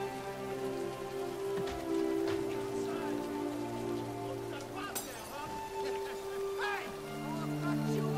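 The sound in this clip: Rain drenches two people as they kiss, a dense, steady patter and hiss of drops that lasts the whole stretch. Sustained tonal sounds run faintly beneath it.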